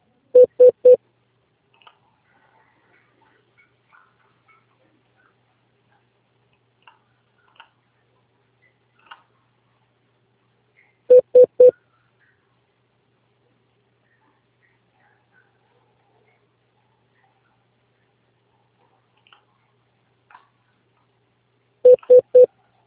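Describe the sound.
Telephone keypad dialing tones as a call is placed again after a dropped line: three short bursts of quick beeps, spaced roughly ten seconds apart, with near silence between them.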